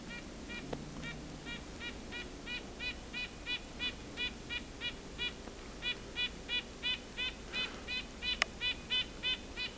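A nasal bird call, likened to a white-breasted nuthatch's yank-like notes, repeats as a long, even series of many short honking notes, faint and steady in rhythm, with no voices.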